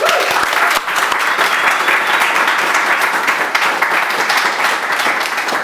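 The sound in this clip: An audience applauds to welcome a guest: dense, loud clapping held at an even level from start to finish, with no talk over it.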